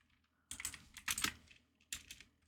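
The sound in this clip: Typing on a computer keyboard: several quick bursts of sharp key clicks separated by short pauses, with no talk.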